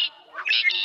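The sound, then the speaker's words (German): A blackbird's song plays from a bird-voice clock as a brief, fairly faint run of clear whistled notes. “Das ist eine Amsel. Die müsstest du aber kennen. Die flitzt hier durch alle Gärten und kann ein ganzes Konzert allein veranstalten.”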